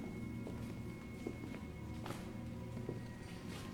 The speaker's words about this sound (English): Now they come down the steps. This is the bank set.